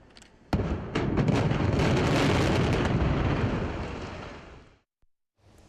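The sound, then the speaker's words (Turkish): Dynamite blasts go off one after another in the controlled demolition of a 48-year-old building. A sharp crack and a second blast lead into a long, loud, roaring rumble that fades out, followed by a brief faint knock. “Ardıl şekilde ateşlenen dinamitler peş peşe patladı. 48 yıllık bina kontrollü şekilde saniyeler içinde yerle bir oldu.”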